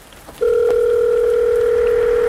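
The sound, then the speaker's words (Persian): A telephone tone sounds while a call is being placed: after a short quiet start, a loud, steady, pure electronic hum comes in and holds unbroken to the end, with a fainter higher overtone. “اینم اشکان داره زنگ میخوره”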